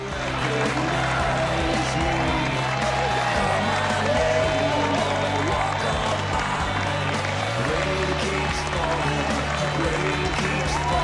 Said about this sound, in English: Their classmates applaud as they bow and curtsy.